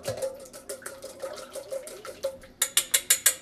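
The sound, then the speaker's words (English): Eggs beaten in a large bowl for a pumpkin pie, heard as a quick run of rhythmic scraping strokes that ends in a few sharper, louder clacks. “Okay, so first we're gonna start with getting the eggs a little beaten up.”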